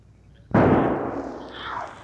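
A single gunshot rings out in a radio drama: a sharp, loud crack followed by a long rolling decay that trails off over more than a second.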